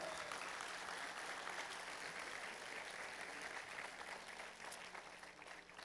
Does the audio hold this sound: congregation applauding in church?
yes

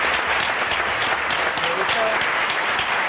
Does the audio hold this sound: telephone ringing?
no

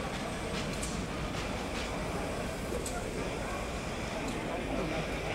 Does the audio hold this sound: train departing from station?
yes

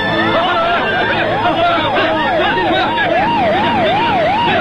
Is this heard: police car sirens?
yes

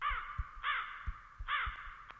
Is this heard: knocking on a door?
no

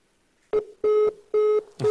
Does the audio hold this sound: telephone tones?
yes

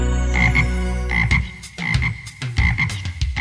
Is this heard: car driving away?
no

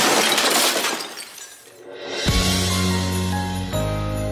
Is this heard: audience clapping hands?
no

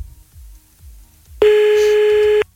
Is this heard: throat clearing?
no

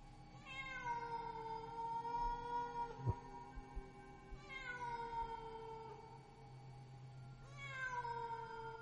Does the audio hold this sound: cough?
no

